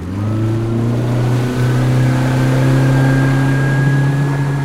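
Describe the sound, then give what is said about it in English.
An outboard motor runs on a small skiff, giving a loud, steady buzzing drone with strong low harmonics that holds a nearly constant pitch throughout, with no voices. “had the outboard going and ran the skiff aground to pick us up”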